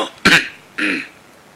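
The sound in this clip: Two dry throat-clearing coughs from an official holding a memorial document, two short, rough bursts a moment apart, heard alone with no talk.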